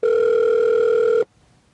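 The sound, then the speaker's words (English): A single steady ringing tone on a telephone line, from a call to the Link Hotel and Casino in Las Vegas. It holds level for about a second before cutting off abruptly into near silence. “Calling the Link Hotel and Casino in Las Vegas.”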